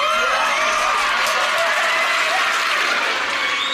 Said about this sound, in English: Make some noise if y'all agree, man.